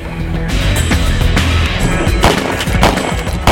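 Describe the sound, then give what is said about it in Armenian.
Gunshots fired just after midnight in a residential courtyard as a car arrives: a few sharp, loud bangs over a dense, rumbling noise bed. “Հնչում են կրակոցներ”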